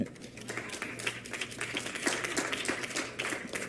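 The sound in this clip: An audience at a talk claps in a dense patter of sharp hand claps that runs steadily for the whole stretch, with no voices.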